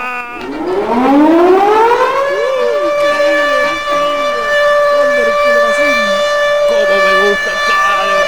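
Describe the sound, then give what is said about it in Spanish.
A siren sound effect winds up from low to a high, steady wail over about two seconds and then holds loud and unbroken, while a voice talks underneath it. “¡Sirena, operador, dame más, sirena!”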